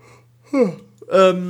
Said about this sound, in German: ich muss mal kurz gähnen